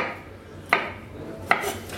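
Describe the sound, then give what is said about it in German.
Food being chopped with a small kitchen knife held in a claw grip: two sharp taps of the blade on a board, separated by a pause under a quiet background. “mit den kleinen Messern hast du da nicht ganz so viel Kontrolle und wenn ich jetzt hier diesen Krallengriff mache, dann kann ich mir nicht in die Finger schneiden und habe hier eine Führung.”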